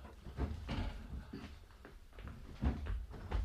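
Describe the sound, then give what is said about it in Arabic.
A wooden window is pushed open with several faint knocks and creaking clatters spread unevenly across the moment. “استنى لما افتح الشباك واشوف مين اللي هناك.”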